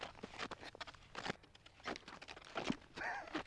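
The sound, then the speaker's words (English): Faint footsteps of someone walking in strapped-on footwear: many soft, irregular steps and scuffs, with no talk. “Yeah, so the straps face towards the outside. Okay, that's right. Okay, well let's give this a shot. All right, so you just stand up and then you just walk.”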